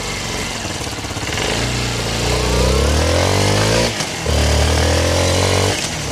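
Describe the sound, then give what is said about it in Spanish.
A parked Suzuki DR160X motorcycle engine catches and runs loudly, revving with a rising and falling pitch, dipping briefly partway through before the revving picks up again. “esta motocicleta Suzuki DR160X. Óigala cómo suena. Óigala. Parqueada. Arranca.”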